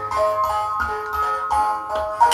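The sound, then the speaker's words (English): Tinkling music-box melody of Camptown Races from a small toy record player with a music-box mechanism in its arm; bright plucked notes in a short, slightly uneven tune with faint mechanical clicks. “It has a little sort of music box-style thing inside the arm, and you put it on the record, and then you flick a switch, and it might work. I guess that's Camptown Races.”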